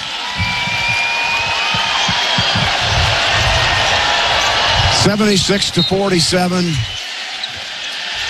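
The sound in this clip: A basketball is dribbled on the court during the closing seconds of a Nebraska Huskers NCAA game, with repeated bounces under crowd noise and a commentator's voice.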